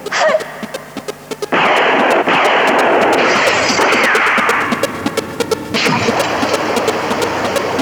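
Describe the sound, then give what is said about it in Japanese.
Gunfire after an order to shoot: many sharp, loud shots in rapid irregular bursts over a dense, continuous roar of noise. “構わんから撃て。”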